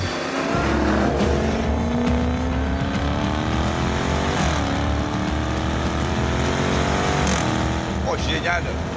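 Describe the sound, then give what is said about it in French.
A Jaguar XE sedan with a powerful V8 engine revs hard on a race circuit with a manual gearbox, its loud, steady roar climbing in pitch through long pulls, with sharp drops at gear changes. “Moi, je passe en boîte manuelle. Prends le rupteur. Toute la difficulté technique aura été d'insérer au chausse-pied le puissant V8 dans ce corps de berline sans en altérer la rigidité.”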